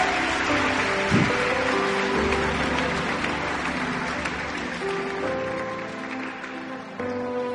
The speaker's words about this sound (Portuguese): Put your hands together for the Lord. Palmas para o Senhor.